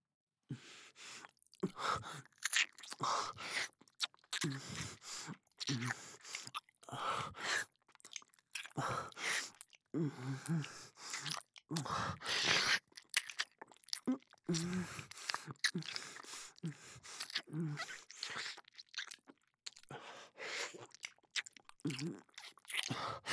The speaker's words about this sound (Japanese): 耳もちょっと舐めさせて。ほら、こっちにおいで。